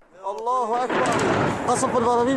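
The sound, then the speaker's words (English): A barrel bomb explodes over the city of Aleppo, Syria: a loud, broad roaring blast that swells after the first second and rumbles on steadily to the end, with voices heard at the start. “A barrel bomb explodes over Aleppo in a video recorded and uploaded by activists.”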